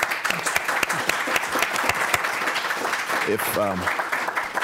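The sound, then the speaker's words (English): An audience applauds the speakers with steady, dense clapping that continues throughout, and a voice briefly sounds near the end. “really think they deserve a round of applause”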